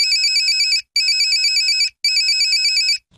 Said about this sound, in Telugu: ఇప్పుడే ఫోన్ చేయి బావా, స్పీకర్ ఆన్ చేసి మాట్లాడు, అందరూ వినొచ్చు.